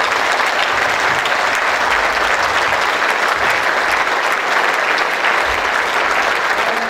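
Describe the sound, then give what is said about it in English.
An audience at an evening dinner event applauds for a full minute. The clapping is loud, dense and steady, a constant wash of many hands that never rises or fades. “All I'm asking for is a minute's applause for all of those people I've mentioned tonight.”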